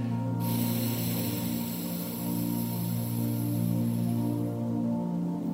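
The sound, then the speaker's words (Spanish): An exhale through the right nostril during alternate nostril breathing: a steady, airy hiss lasting about four seconds, laid over a low, sustained tonal drone that continues after the breath ends. “Miren cómo cambio de la fosa nasal derecha que estaba bloqueada al inhalar y ahora bloqueo la izquierda para exhalar por la derecha.”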